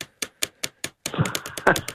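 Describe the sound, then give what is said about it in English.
A pen with an oily, smooth-writing ink is tapped on a surface like drumsticks: five crisp, evenly spaced taps, then a quicker, louder burst of many rapid drum-like hits. “But whilst you were waiting to come on, I've been using it as drumsticks. Thought I'd share with you.”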